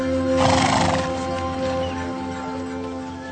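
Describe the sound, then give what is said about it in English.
A horse pulling a horse-drawn sleigh whinnies in a loud, drawn-out neigh early on, followed by steady hoof clip-clop beneath a continuous background hum. “A sleigh ride.”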